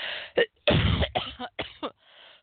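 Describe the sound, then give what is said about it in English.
Wet, chesty coughing from a person with a lingering cough and mucus: a run of several sharp bursts in quick succession with short gaps, mixed with throat clearing and a softer, rougher stretch near the end. “I do want to let you know I still have my cough.”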